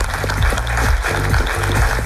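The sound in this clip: Audience applause after a presentation, a continuous dense patter of clapping held at a steady level, with low rumbling underneath.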